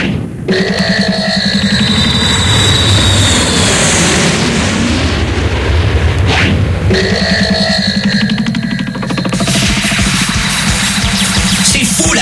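An airplane being parked on a building roof gives a loud, continuous engine roar, a dense rumbling noise with a steady tonal drone that holds throughout and briefly shifts midway.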